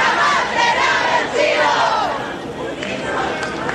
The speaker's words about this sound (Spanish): gritan cada cierto tiempo a la espera justamente de las declaraciones que va a dar la candidata Yanet Jara acá, en este escenario. Escuchemos parte del ambiente que se está dando hasta ahora acá.